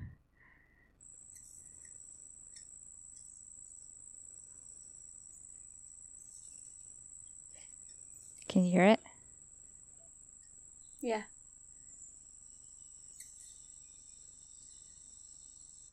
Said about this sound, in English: I was specifically looking for what the hummingbird sounds like, so what noise the hummingbird makes while it's like chirping versus the constant hum